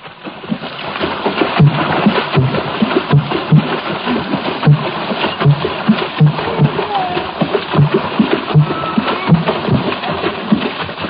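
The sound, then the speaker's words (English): Water drumming from Gabon: deep, regular bass thumps over a continuous, dense, splashing wash of water. “that bass effect, in the Gabun water drumming offers a parallel to the trombone of primitive jazz.”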